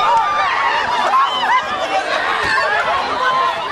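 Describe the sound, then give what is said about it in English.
Shoppers queuing noisily outside Asda in Wembley on Black Friday 2014, a dense, continuous crowd babble of many overlapping voices at a loud, steady level. “You can hear people queuing noisily outside Asda and Wembley.”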